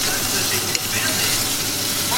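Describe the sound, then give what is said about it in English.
A burger patty sizzles as it is flipped to build more crust on the other side. The hiss is steady and bright, with a single short knock near the middle. “burger flip. Time to put a bit more crust on the other side.”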